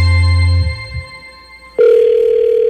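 Telephone call tones before a voicemail greeting: a low, steady tone cuts off, a short quiet gap follows, then a loud sustained beep sounds at a higher pitch.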